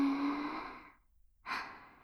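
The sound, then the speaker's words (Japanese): Deep breathing in and out: a long, soft breath with a faint voiced sigh fades away, and after a brief silence a sharper, airy breath follows. “ほら、息を吸って、吐いて、吸って、”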